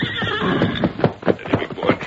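A horse gives a loud, shaky whinny with a pulsing, quavering tone that lasts about two seconds, with no talking.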